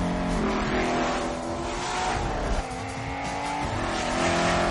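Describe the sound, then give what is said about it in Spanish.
Two cars skid around a curve on a frozen lake, with loud, continuous engine roar and squealing tires sustained throughout. “Los dos coches circulan sobre un agua helado toman una curva derrapando.”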